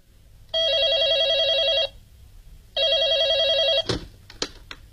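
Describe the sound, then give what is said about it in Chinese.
A telephone rings while a call is placed to a hotel: two long, steady electronic trilling bursts separated by a short gap, then a few sharp clicks. “快给酒店挂电话吧。”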